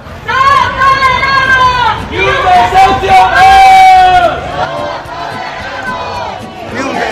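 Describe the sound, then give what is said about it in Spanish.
A protest crowd chants loudly outside a company's headquarters in central Valladolid, gathered over an eviction. Many voices shout slogans in unison, building to a peak midway before the chanting eases slightly. “Es el sonido de la concentración convocada frente a la sede de Urbagestión en el centro de Valladolid.”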